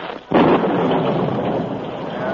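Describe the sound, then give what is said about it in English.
A sudden thunderstorm breaks with a loud burst of thunder that swells into a dense, steady rumbling roar and holds at full strength to the end, with no voices. “As he rode, a sudden storm broke.”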